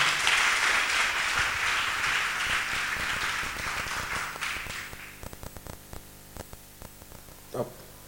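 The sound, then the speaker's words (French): An audience at a church service applauds to acclaim God. The dense clapping thins out and dies away, leaving a few scattered claps and a faint hum. “Acclame Dieu et puis mets-toi en position.”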